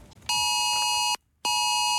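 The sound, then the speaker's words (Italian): Amber Alert child-abduction emergency tone as broadcast on smartphones and TV: a loud, steady, buzzing multi-tone beep lasting under a second, a brief silence, then a second identical burst. “Inizia così, preceduto da un inconfondibile segnale sonoro, un messaggio irrompe contemporaneamente sugli schermi di smartphone e TV. È l'Amber Alert”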